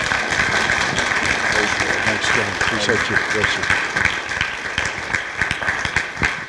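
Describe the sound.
Audience applause welcomes Pastor Greg Moore, a Bible college instructor, to the stage: a dense, steady wash of clapping lasting throughout, with a voice faintly audible beneath it partway through.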